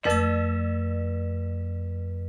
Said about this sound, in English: I'll let you ring the victory gong.